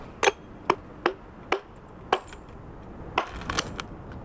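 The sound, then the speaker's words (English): Stone cracking as a piece is split off with wedges and a hammer: several sharp, crisp strikes at uneven intervals, then a quick cluster of smaller cracks and ticks near the end. “Then he gently breaks pieces off with wedges and a hammer. And I split the piece off. It's like Rice Krispies almost, popping in milk.”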